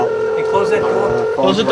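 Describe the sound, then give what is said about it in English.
Telephone tones sound as a call is dialed in, a steady electronic tone running under voices for the whole short stretch. “Dialing in now.”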